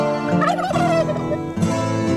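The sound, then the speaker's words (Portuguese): A rooster crows in a wake-up radio jingle: one loud, strained, harmonic call of about two seconds with a brief dip near the end, and no voices. “o galo já cantou”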